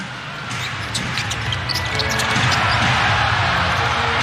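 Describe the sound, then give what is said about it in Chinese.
During a professional basketball game, a ball rattles around the rim after a step-back three-point attempt, giving a few quick metallic knocks over a constant wash of crowd noise. “后撤步的三分球波顿啊，球在框里晃了一圈，”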